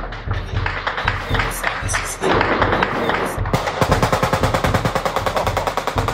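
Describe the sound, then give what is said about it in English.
Gunfire from an AK rifle shot off in celebration right next door to a house in Kabul, with tracer rounds in the sky: loud, sharp shots that settle into many rapid, evenly spaced cracks in sustained bursts. “Someone just fired off an AK. I can just see tracer rounds arcing through the sky all around me out the window.”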